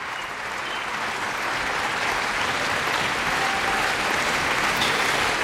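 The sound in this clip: Enthusiastic applause from a festival audience at La Roque-d'Anthéron in August 2021, after a piano recital of Bach's Partita No. 2 in C minor. Dense, sustained clapping, alone and without speech, swells slightly and holds steady.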